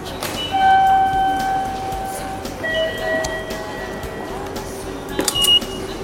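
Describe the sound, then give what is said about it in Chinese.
Railway platform ambience while waiting for a Chiba-to-Tokyo train: a steady background rumble with sustained electronic tones, a few faint clanks, and a louder clattering burst near the end. “在站台上等候从千叶开往东京的列车。”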